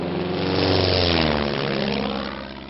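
A propeller airplane roars loudly as it takes off, a dense, steady engine drone with throbbing low tones that swells slightly and then eases off toward the end.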